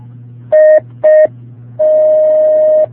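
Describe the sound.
Telephone dialing tones as a caller's line connects: two short, bright beeps followed by a long steady tone, all loud over a constant low hum.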